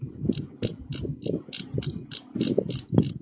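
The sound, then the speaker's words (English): Rapid ratcheting clicks from a computer mouse's notoriously loud scroll wheel, many small ticks in quick irregular runs with brief pauses between them, heard alone without voices. “The wheel on my mouse. You hear that? That's a loud ass wheel, man.”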